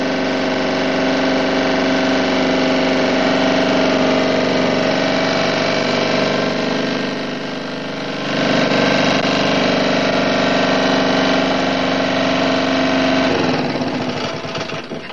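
A car engine runs with a loud, continuous droning hum at an even pitch. Its loudness eases briefly midway, then returns to a steady level.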